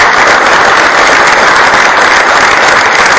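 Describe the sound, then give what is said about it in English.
Audience applause at a rocketry event: dense, steady clapping that stays loud and even throughout, with no voices standing out. “So I'd like to give them all a round of applause.”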